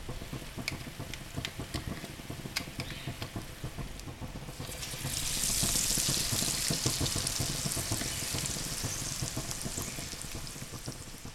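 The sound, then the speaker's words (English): Falafel balls, scooped from the mix into hot oil, fry with a steady crackling sizzle and scattered small pops. The sizzle grows louder partway through and stays full to the end. “you have to do is drag the scoop through the falafel mix and just press on the handle to release it into the hot oil”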